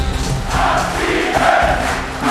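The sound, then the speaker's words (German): A hall crowd at a political gathering cheers and chants "abschieben", a dense, continuous roar of many voices that holds steady and loud throughout. “Wenn jetzt der ganze Saal jubelt mit dem Aufruf abschieben, dann ist es kein Witz mehr.”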